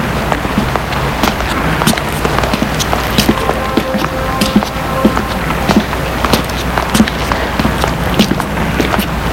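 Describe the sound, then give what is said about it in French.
Brisk footsteps of a woman walking: a steady run of quick, sharp taps over a dense, continuous background noise. “Elle entend toujours les pas.”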